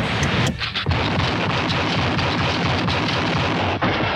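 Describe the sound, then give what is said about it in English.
Rifle shots from the 1960s western TV series The Rifleman, a dense, loud barrage of booming cracks running almost without a break for about four seconds. “Chuck Connors pretty good with that rifle, isn't he? He always hits what he aims at.”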